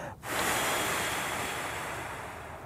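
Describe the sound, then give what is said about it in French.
A single long, forceful exhale during a relaxation breathing exercise: a steady, loud rush of breathy air noise that starts abruptly and holds for over two seconds before easing slightly, with no talking. “Souffle.”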